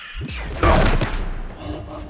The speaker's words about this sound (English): He guns down a surviving Helion soldier.